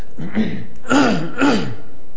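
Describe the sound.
A person clears their throat with a few harsh, raspy bursts and voiced grunts, trying to dislodge something stuck in the throat during communion. The bursts are loud and sound alone.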